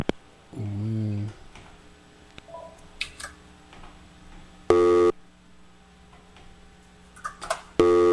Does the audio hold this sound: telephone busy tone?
yes